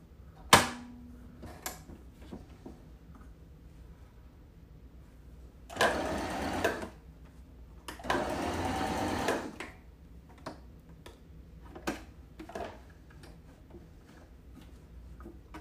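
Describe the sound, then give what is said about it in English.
Two bursts of a sewing machine stitching fabric: a shorter run for a back stitch, then a longer straight seam, each a steady buzzing whir, with scattered light clicks and taps in the quiet gaps. “I just did my back stitch and now I'm just gonna do one strip straight up.”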